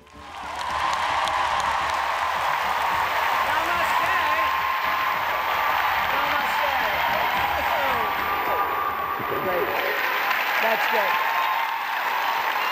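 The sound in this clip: Sustained applause from a large audience giving a standing ovation at Radio City for Deepak Chopra: loud, dense, continuous clapping with crowd noise that holds steady throughout.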